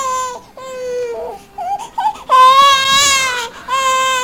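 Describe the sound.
A newborn baby cries loudly: high, piercing wails broken by short gasps and a stretch of softer whimpering, then a long sustained wail and another cry starting.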